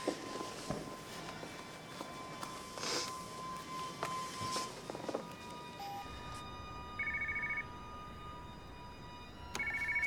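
A telephone rings faintly in two short electronic bursts near the end, heard alone after several seconds of soft scattered knocks and footsteps.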